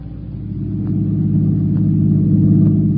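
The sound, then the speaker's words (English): A car engine rumbles low and steadily as the vehicle is driven fast, swelling slightly in loudness over the first second and then holding a constant deep drone with no talk. “You're driving too fast”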